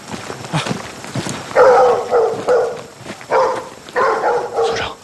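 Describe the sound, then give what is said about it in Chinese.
A dog barks a few times in short, loud bursts separated by brief pauses, each bark sharp and mid-pitched over a faint background. “有狗叫，肯定有人，咱们快点， 跟上啊！”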